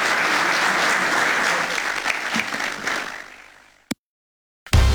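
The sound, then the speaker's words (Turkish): An audience gives strong, sustained applause seeing off the president, a dense roar of many hands that fades away near the end, followed by a single sharp click and silence. “Sayın Cumhurbaşkanımızı saygılarımızla ve kuvvetli alkışlarımızla uğurluyoruz.”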